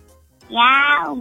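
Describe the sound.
A human voice imitating a small kitten's meow in an animal-sounds guessing game: one drawn-out, fairly loud, nasal mewing call that starts after a near-silent opening and tapers slightly at the end.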